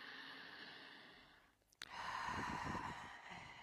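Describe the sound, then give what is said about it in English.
A slow, deep breath is drawn in and let out during a guided relaxation exercise. It is soft, airy and breathy, with no voice over it. “Take a deep breath. Feel the feelings, and one more breath.”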